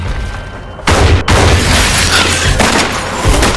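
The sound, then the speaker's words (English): An exchange of gunfire between two shooters in cabins above shin-high water: a few loud, booming shots stand out from a dense, continuous roar of noise. “As Ellie starts firing, he drops through the floor to the shin-high water beneath. While Ellie and Finch exchange fire above”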